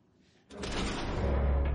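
A door leaf moving in the horror film A Quiet Place gives a low, heavy scraping rumble that begins suddenly after a near-silent moment and continues steadily, with a deep bass weight.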